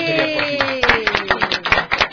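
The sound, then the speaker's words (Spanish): Children clap for their parents and families, starting with a few scattered claps that quickly grow into brisk, many-handed clapping with a lively, uneven rhythm. “Aprovecho también, sí, para, por favor, niños, denles un aplauso a sus padres, a sus familias”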